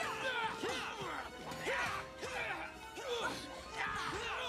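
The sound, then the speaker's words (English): Kicks hitting an opponent in a fight scene come as a few faint, repeated crashing impacts, each carrying a sweeping tonal swish, in a loose rhythm. “You'll have to kick harder than that.”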